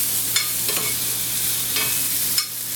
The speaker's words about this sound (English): So in go the onions and the leeks and the carrots. So we're going to stir those around.